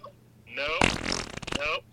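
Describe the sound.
A single fart sound effect is played as a drop: a sputtering, buzzy blast with a wavering tone that lasts about a second and a half before cutting off.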